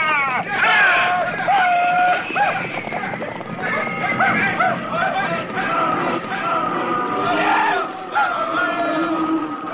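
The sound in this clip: A herd of cattle is driven through an opened fence in thick dust, with many overlapping lowing calls and a steady rumble of movement as men's voices call out among the animals.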